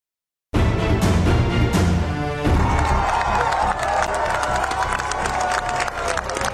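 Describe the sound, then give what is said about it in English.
A large crowd cheers after the pope's release from a Rome hospital: loud, continuous shouting and whooping with some clapping, a dense roar that starts suddenly and holds steady. “That is the sound of cheers after Pope Francis was finally released from a Rome hospital.”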